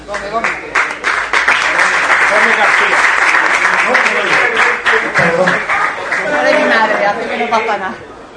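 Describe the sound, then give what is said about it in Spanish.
An audience applauds at a ceremony where commemorative framed pictures are presented. Dense, steady clapping runs throughout, with chatter and voices mixed in. “Un aplauso para...”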